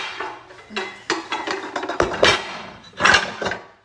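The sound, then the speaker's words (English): A mixing bowl is grabbed and handled in a kitchen while sourdough discard pancakes are prepared. A series of loud clattering knocks and clinks comes in uneven bursts, with the sharpest clanks near the end. “go ahead and grab my mixing bowl.”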